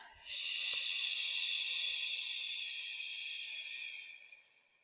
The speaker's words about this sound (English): For me is an inhale. And then on the exhale, making a shushing sound.